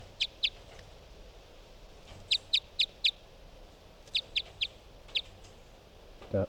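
Short, sharp, high chirps from a bird, coming in quick clusters of two to four with pauses between, over a faint steady hiss.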